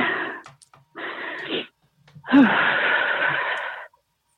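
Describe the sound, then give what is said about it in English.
Heavy, laboured human breathing: three harsh, wheezy breaths with short pauses between them, the last one longest and loudest. “Sorry, I'm just trying to breathe.”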